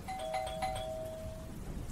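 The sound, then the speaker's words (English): A doorbell rings with an electronic chime, two bright tones that hold for about a second and a half before fading over a steady background hiss. “A minute later, though, the doorbell rang again.”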